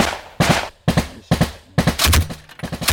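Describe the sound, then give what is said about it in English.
Gunfire from small arms and heavy machine guns on a Ukrainian front line: several loud, sharp cracks spaced apart, then dense, rapid overlapping bursts of fire, with no voices. “constantly firing at the entrenched Ukrainians. The enemy uses all kinds of weapons, Bogdan says”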